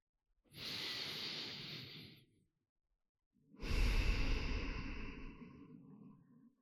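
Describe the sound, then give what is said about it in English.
A deep breath: a steady, airy inhale lasting over a second, a brief pause, then a longer, heavier exhale that gradually tapers off. “And maybe we'll just take a deep breath to renew our sense of focus and come back into your body a bit.”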